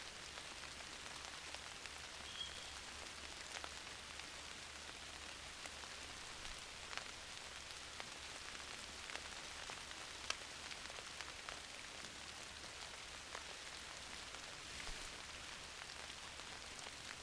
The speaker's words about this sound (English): I'm going to leave you with this sound just for a few moments of the rain falling against this big umbrella.